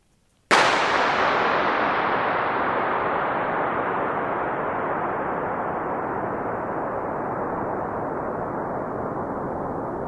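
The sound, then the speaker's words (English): A single gunshot inside a huge concrete oil storage vault set into a hillside in northern Scotland: one sharp, loud crack followed by an extremely long, smooth reverberant tail that fades only slowly over about ten seconds. “The sound is a gun going off in an oil storage tank, right? Yeah, it's just a huge concrete vault.”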